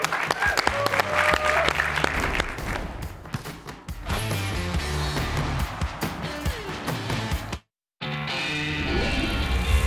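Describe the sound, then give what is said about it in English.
Audience applause for a guest on a BYU basketball show, loud and sustained, cutting to a brief silence near the end before resuming. “Let's give a hand for Mihailo Boskovic with Boskovic forces on the floor.”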